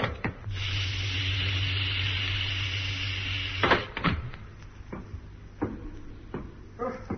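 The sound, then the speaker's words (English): A spacecraft hatch opens on a low-gravity moon landing: a steady hiss over a low hum lasts about three seconds, then several sharp clunks and knocks follow. “Hatch opening.”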